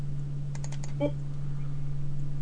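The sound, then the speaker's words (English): A few quick, faint computer mouse clicks come in a short burst over a steady low electrical hum. “Oops. Come on. Click. I clicked it. Come on.”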